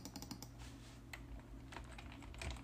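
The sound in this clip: Faint, rapid clicking of fingers on a computer keyboard as someone types a Google search, with irregular keystrokes running through the whole clip.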